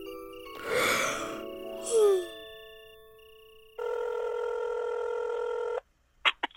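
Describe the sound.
Telephone ringing on a call to a plant specialist: a few softer tones come first, then a steady buzzing ring tone lasting about two seconds, then a few sharp clicks.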